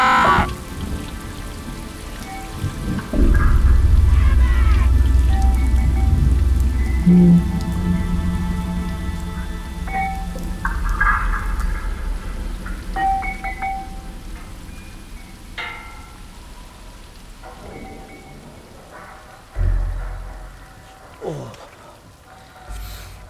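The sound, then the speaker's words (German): Rain runs into a well in a courtyard, a steady dense patter and trickle that is loudest early and gradually thins, with a few heavier thuds near the end. “Der Regen läuft hier in den Brunnen.”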